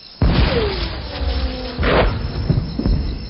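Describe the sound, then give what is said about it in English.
Artillery batteries fire high-explosive shells in heavy, loud booms: a sudden blast opens, a second deep boom follows midway, then a few lesser thuds trail after. “All batteries, up four turns. Searching forward to 1,000 HEs. Commence firing. Commence firing!”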